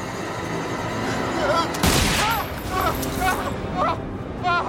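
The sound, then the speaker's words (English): A single sharp gunshot cracks out loudly during a tense armed standoff, a brief burst standing out over a steady background murmur with scattered short chirping sounds around it. “He shot me! He shot me!”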